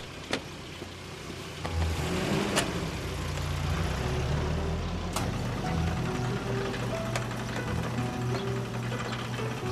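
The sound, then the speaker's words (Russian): A jeep waits in a courtyard, its engine settling into a steady low idle hum soon after the start, with occasional sharp clicks and mechanical ticks over it. “Вячеслава Ивановича во дворе уже встречает джип с личным водителем и охранником”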